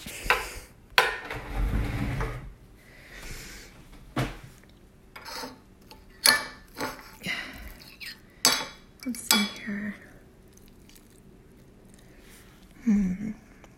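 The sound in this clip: Cutlery clinks and scrapes on plates while eggs are being eaten. The taps are scattered and irregular, mostly soft, with a few sharper knocks of dishes and utensils.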